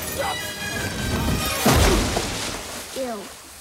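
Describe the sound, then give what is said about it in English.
A body smacks down on a wooden landing stage beside a river in one heavy, crashing thud, with a voice talking over it. “Sam leaps up and runs around, trailing the flaming blanket, then jumps into the river, smacking down on the wooden landing stage again.”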